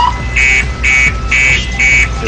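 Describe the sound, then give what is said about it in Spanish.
A car alarm sounds from a parked vehicle with people sitting inside, giving four evenly spaced, loud electronic beeping pulses over a steady low rumble. “Hay gente dentro de ese vehículo y este está con alarma y se ríe.”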